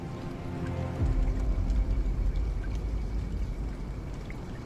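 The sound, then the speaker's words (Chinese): Light rain falls in a sudden sun shower, a steady patter and hiss that thickens after about a second as a deeper, fuller wash of falling water joins in and continues. “他欲言又止，听着外边忽而传来几点雨声，竟下起了晴雨。”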